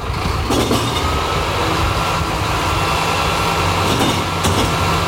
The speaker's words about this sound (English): So it begins, the first thing that wakes us up is the bin lorry.